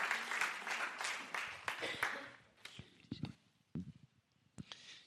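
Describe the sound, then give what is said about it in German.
Audience applause at a church gathering, a dense burst of clapping that fades after a couple of seconds into scattered claps and murmuring voices. “gib ihm mal einen Applaus”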